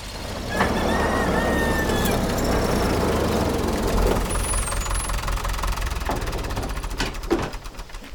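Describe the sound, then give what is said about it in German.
A tractor engine rumbles steadily as the tractor drives out onto a farm field, with a loud, continuous low-pitched drone and knocking texture that holds throughout. “Wollen wir uns den Traktor mal angucken? Klar, kommt, wir öffnen Felix die Tore. Er will bestimmt aufs Feld fahren.”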